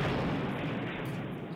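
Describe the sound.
Explosion sound effect: a broad, rumbling boom that fills the moment and slowly fades over under two seconds, with no voices.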